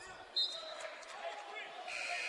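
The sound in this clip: Basketball sounds from a high school game with Mishawaka playing: ball bounces and sharp sneaker squeaks on the court under steady crowd noise and voices, with one brief louder burst early on.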